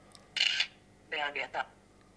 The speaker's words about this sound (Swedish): Och så håller jag telefonen rakt ovanför. Tar en bild.